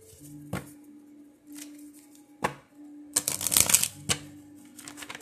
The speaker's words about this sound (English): let's go ahead and pull out our love oracle cards, the soul connection, and let's see exactly where this love is going to take us.